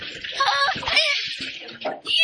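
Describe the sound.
Sea water and fish are poured into a bucket, producing bright, splashy sloshing and gurgling bursts that rise and fall over about two seconds.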